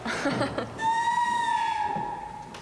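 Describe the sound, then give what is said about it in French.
A handmade clay whistle from a pottery workshop gives one sustained, clear tone of about a second, steady and slightly sagging in pitch as it ends, preceded by a brief burst of noise. “Qu'est-ce que vous avez fabriqué dehors, à l'atelier poterie ? On a fabriqué des choses pour siffler.”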